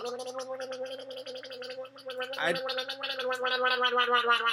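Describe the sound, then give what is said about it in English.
Someone gargling liquid cough medicine, a continuous bubbling, rattling sound that breaks off briefly partway through, then resumes louder and keeps churning to the end. “I'm just going to have to gargle some of this.”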